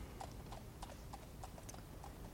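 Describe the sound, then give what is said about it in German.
Hooves clip-clop as a horse-drawn tram arrives, many evenly spaced, fairly faint hoofbeats in a steady walking rhythm over a low, constant rumble. “Ich muss hier auf meine Pferdebahn warten.”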